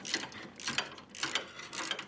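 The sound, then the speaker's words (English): A socket wrench with a 10 mm socket tightens nuts on motorcycle floorboard hardware, an Allen key holding the bolt heads, giving four short bursts of quick metallic ratchet clicking separated by brief pauses. “I'm going to hold the head with an Allen, use a 10 millimeter socket. I'm putting the nuts to the inside, tighten these up.”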